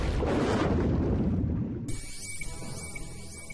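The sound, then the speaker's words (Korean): A cartoon missile launches with a loud, broad rushing roar that holds steady before easing off after about a second and a half, giving way to a thinner, higher hiss. “모사 미사일 준비! 조준! 발사!”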